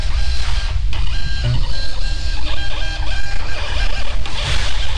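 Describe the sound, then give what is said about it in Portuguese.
An electronic voting machine prints its results report after polls close, turning out five copies: a loud, steady mechanical whirring and buzzing with a fast, even rhythmic texture that runs without pause and has no voices over it. “Aí ele vai imprimir o boletim de urna. Tá. A urna imprime 5 vias.”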